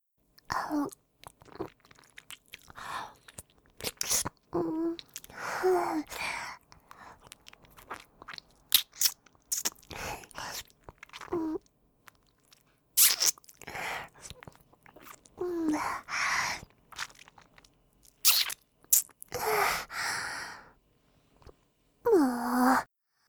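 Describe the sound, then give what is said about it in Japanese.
Wet mouth sounds of someone licking a ring finger up close: many irregular bursts of smacking and slurping separated by short quiet gaps, with occasional soft voiced breaths between them. “次は、薬指を舐めてみましょう。”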